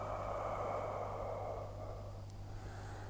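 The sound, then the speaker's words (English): A slow, long breath exhaled while holding the arms overhead during a guided breathing exercise, heard as a steady, soft airy rush with no talk that gradually thins and fades toward the end. “Hold at the top and exhale slow and long.”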